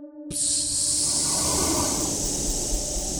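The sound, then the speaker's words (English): A loud, steady hiss as fog pours from the joints of a suit of armor. It starts abruptly and holds a broad, airy texture at an even level to the end. “a hiss emits as a shadowy fog begins to pour out of its joints and begins to fill your surroundings.”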